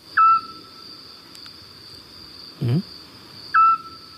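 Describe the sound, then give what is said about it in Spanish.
A Eurasian scops owl calls at night with two short, clear, single-pitched whistled hoots about three seconds apart over a steady high drone. “Este sigue un autillo. Qué bonito, ¿eh? Qué bonito canta, además, ¿no?”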